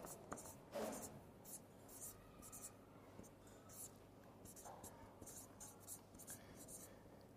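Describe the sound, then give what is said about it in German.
Faint pen scratching as words are written by hand, with many short strokes and taps in an uneven rhythm, joined now and then by soft speech. “Ich schreibe einfach mal Frieden, Unfrieden.”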